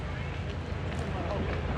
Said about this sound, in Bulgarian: Добро утро от пристанището в Царево. Море, лодки, слънцето.